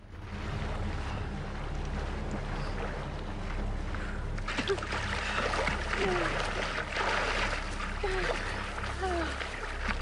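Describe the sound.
Two swimmers floating on their backs kick at the sea surface, sending up a steady wash of splashing water over a low rumbling backdrop, with a voice heard faintly in places.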